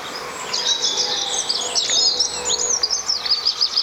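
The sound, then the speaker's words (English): Recorded bird song played back at a derelict housing estate: many high chirps, whistles and trills that run steadily throughout, over a low background hum. “So I did two interventions, one playing this bird song to see if I could increase habitation of birds in the space”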